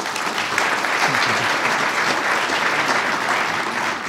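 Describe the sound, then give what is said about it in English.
An audience applauds to welcome a speaker onto the stage, a dense, sustained wash of many hands clapping at an even loudness from start to finish. “Please join me in welcoming Dr. Jeffrey Wadsworth.”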